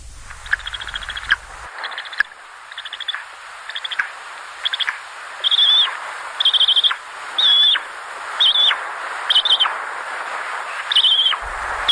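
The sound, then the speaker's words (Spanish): Bird chicks call from the nest in a long series of high, rasping notes, many short calls repeated at a fairly regular pace, louder toward the end over a faint hissing background. “Estamos escuchando a pollos en el nido”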